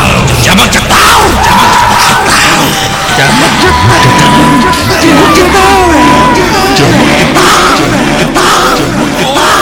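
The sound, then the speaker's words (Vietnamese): A crowd of bleeding old women shouts loudly in unison, a dense wall of bellowing, yelling voices that stays loud and continuous for nearly ten seconds. “Anh đã bị vây ở giữa những bà già ấy, giống nhau một cách kỳ lạ. Họ đều bị chảy máu và đồng thanh hét tướng lên:”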